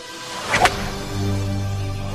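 A golf club swung at the tee makes a single quick swish, a brief sharp whoosh, followed by a low steady drone.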